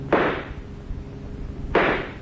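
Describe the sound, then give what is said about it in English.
Two sharp gunshots fired at a car's rear tire during a car chase, one near the start and one late. Each is a loud, sudden crack that fades quickly over a steady low rumble. “I'm going to try and shoot out a tire. Go to it, Rick. But keep your bullets low.”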